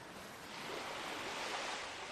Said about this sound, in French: Imaginez maintenant, vous êtes sur cette plage.